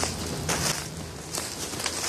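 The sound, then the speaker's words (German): Footsteps on a forest walk in the Grötzinger Bergwald near Karlsruhe: a few soft, crunching steps over a steady bed of background noise. “Spaziergang im Grötzinger Bergwald bei Karlsruhe.”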